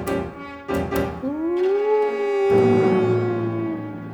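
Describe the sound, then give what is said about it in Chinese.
A howl in the mountains: one long, loud, tonal cry that rises in pitch, holds, then slowly sinks and fades. A few short knocking thuds come before it. “然后听到山中传出几声嚎叫，”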